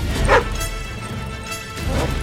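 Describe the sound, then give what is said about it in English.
A dog barks while chasing a bicycle along a road: a few sharp barks rising above a steady rumbling noise. “A dog chases them. Watch it! I'll have your dog tag!”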